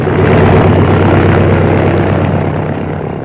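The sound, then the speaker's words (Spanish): A small modern light aircraft takes off from a runway with a loud, steady propeller-engine roar over a deep low drone. The sound eases slightly toward the end. “el pequeño aparato se deslizó velozmente por la pista y en unos segundos alzó el vuelo.”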